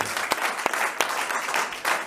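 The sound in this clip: Audience applause, a dense, steady patter of clapping with a few sharp, louder claps standing out, holding at an even level for about two seconds with no voices.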